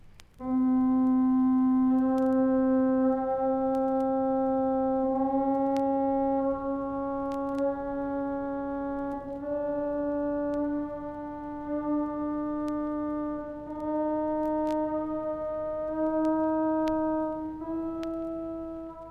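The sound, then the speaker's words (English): Steady, pure-tuned electronic tones step upward through pitches within a single octave of a 43-tone scale. Each clear, sustained note holds for a few seconds before moving up by a small interval, and the tones play alone. “Of the pure-tuned tone series, we hear a number of the 43 pitches within one octave, like this.”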